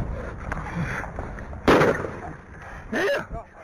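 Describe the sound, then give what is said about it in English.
A sheriff's deputy fires a gunshot while a fleeing man is tackled to the ground during an arrest in Tulsa, Oklahoma. One sharp crack rings out amid background noise, and a loud shouting voice follows soon after. “The deputy said, "Oh, I shot him. I'm sorry." Authorities said the officer meant to use his stun gun.”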